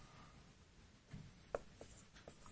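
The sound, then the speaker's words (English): Faint pen-on-surface scratching as someone writes backwards, a few short, soft strokes and taps spread across the moment, with no voices. “how's that for writing backwards?”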